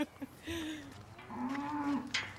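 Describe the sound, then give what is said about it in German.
A limping cow on a farm lets out long, low, drawn-out moos, two sustained calls with a wavering pitch, fairly faint and with no talk over them. “die Mutter des Bauern bringt den Knochenbrecher hinters Haus zu einer humpelnden Kuh.”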